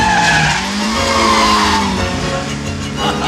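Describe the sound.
A car driven fast by a blind colonel skids with loud tire squeal. Wavering, high, tonal screeches ride over a continuous engine roar throughout.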